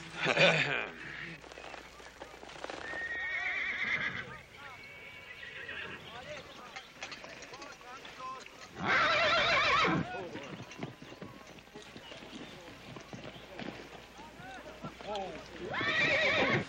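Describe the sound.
A horse neighs and its hooves clip-clop during a riding lesson. A few loud, shrill whinnies stand out, at the start, in the middle and at the end, above a steady layer of hoofbeats.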